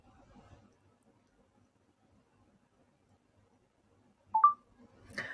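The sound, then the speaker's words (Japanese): A phone camera shutter fires as a photo is taken: one short, bright tonal click near the end, after near silence with a faint murmur at the start. A second, softer noisy burst follows just after. “ではちょっと今写真をパシャリしますね。”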